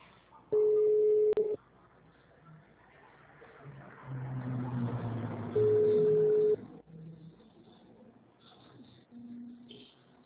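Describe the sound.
Ringback tone of an outgoing phone call to a bank: two steady, mid-pitched tone bursts of about a second each, separated by a long gap of faint line noise and murmur.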